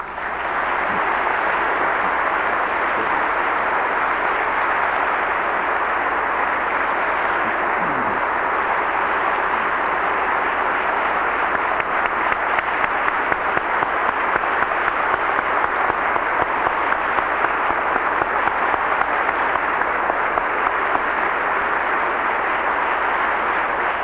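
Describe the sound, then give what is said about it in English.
Sustained applause from an audience giving a speaker a standing ovation after a speech on justice, a dense, steady wash of clapping that stays loud and unbroken throughout, with no talking. “For the benefit of our listening audience, I would point out that you've just received a standing ovation.”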